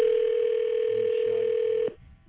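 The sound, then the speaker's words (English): A telephone dial tone hums as a call is placed: a single steady, unbroken tone that cuts off abruptly near the end, leaving only faint low noise. “All right, let's phone Andy, see if we can scare him a little bit.”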